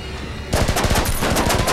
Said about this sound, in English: Patrick turns, spots Theo, and starts running towards him, shooting. Fire!